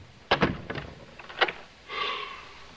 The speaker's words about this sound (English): He closes and locks the door.